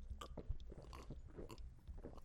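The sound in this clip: Beer sloshes around inside a mouth, making faint wet swishing and smacking noises that run on steadily with small irregular bursts and no talk.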